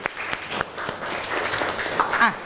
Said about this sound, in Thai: ปรบมือให้กับตัวแทนเพื่อนด้วยครับ